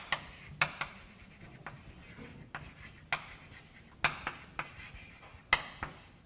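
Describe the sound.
Handwriting as a mathematical definition is written out, the set of all accumulation points of a set: many faint, scratchy strokes and taps in an irregular rhythm, with no talk over them.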